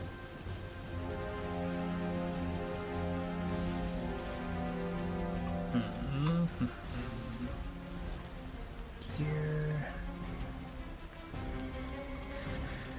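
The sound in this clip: Rain falls steadily outside a cave as a soft, low wash of noise beneath a sustained musical drone. It stays quiet and even throughout.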